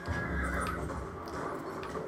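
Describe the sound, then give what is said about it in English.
A horse whinnies in a video game, a brief neigh over a dense, steady bed of game noise, with no talk. “Someone's shooting at my horse.”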